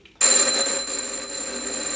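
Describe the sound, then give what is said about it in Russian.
A telephone rings in a home while guests are expected, a bright electric ring that starts abruptly after a brief hush and then sustains steadily and loudly to the end. “Это не в передней, это телефон.”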